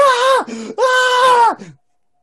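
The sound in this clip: A video game character screams in pain after being sliced open and stabbed, lying on the ground. Two long, strained, wailing cries are joined by a lower groan between them. The second cry trails off into a faint, fading whimper.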